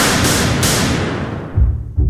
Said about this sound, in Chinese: 只听啪啪啪三声枪响，人群顿时慌乱了起来。